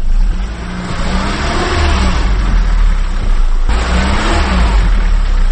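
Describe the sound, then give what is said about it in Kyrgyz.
Car engine revving hard as the vehicle sits stuck in mud on a dirt road after a short rain on the outskirts of Bishkek: a loud, sustained, rumbling roar that holds steady throughout. “Анткени 5 мүнөт жааган жаандан жер баткакка айланып, биз барган унаа тыгылып чыга албай калды.”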